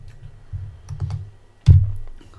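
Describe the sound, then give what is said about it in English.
Keys clatter on a small wireless computer keyboard, a few quick keystrokes followed by one louder clack near the end, heard alone without talk. “This wireless little keyboard's been a game changer though.”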